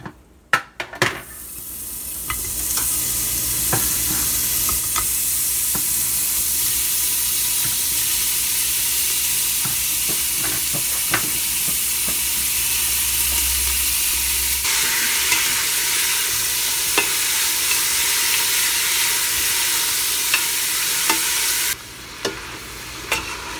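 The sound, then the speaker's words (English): Sizzling of a raw roast browning in a hot frying pan: a loud, steady hiss that runs throughout, with a few small pops and crackles. “and put it in the hot pan to brown. And here it goes.”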